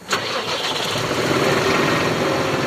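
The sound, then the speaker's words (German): A large potato harvester's engine runs in a field. It starts with a sharp onset, then holds a loud, dense, steady mechanical roar, with no voices. “Landwirt Frank Böttcher eine große Erntemaschine gezeigt, den sogenannten Roder.”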